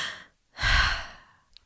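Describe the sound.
A diver breathes oxygen from a tank worn in a vest on the back: one long, loud, airy breath that swells and slowly fades, followed by a faint short click.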